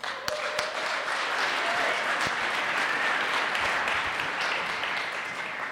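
Audience applause welcoming a preaching minister: dense, steady clapping from many hands that stays even and sustained throughout, with a few sharper individual claps standing out.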